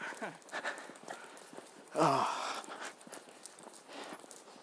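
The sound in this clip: Hoofbeats of a galloping horse: a quiet, uneven run of clip-clop strikes, with a person's voice briefly heard over them.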